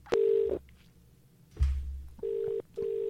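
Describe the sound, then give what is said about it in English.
A telephone number is dialled as three steady electronic beeps. The first beep stands alone and the last two come close together, with a dull knock in the gap between. “I'm just going to call Gatford again. Let me call Gatford.”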